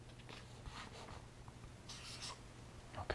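Faint, soft scratching of a pen or pencil writing down a number in a 10 by 10 math puzzle grid, a few quiet strokes over low background hiss with no talking.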